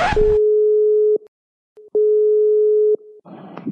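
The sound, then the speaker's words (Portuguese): An outgoing telephone call's ringing tone plays as two long, steady, mid-pitched beeps of about a second each, separated by a pause, with brief bursts of noise before and after. “Vamos ligar pra Evening Feitosa.”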